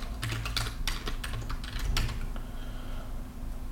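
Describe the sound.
Computer keyboard clattering as a collection name is typed in: rapid, dense keystrokes for about two seconds, then a few lighter clicks, all over a low steady hum.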